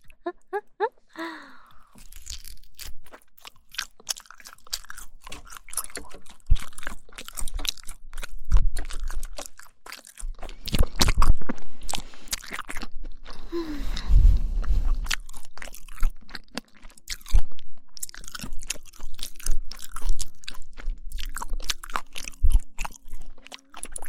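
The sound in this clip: Close chewing of a starch meat sausage, with many crisp, crunchy bites and wet mastication sounds in an uneven rhythm, loud and alone.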